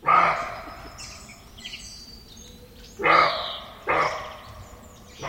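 A roe deer barking: a few hoarse, harsh barks spaced irregularly, each short and loud, with quieter background sound between them.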